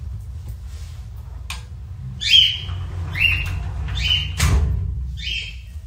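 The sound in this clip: A pet bird sings several bright, high chirping calls in repeated short bursts over a steady low hum, with irregular gaps between the phrases.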